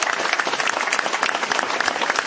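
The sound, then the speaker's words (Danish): Audience applause welcoming a speaker on stage at a Danish Relay for Life cancer charity event, with many hands clapping in a dense, even patter throughout. “Skal vi give hende en stor hånd?”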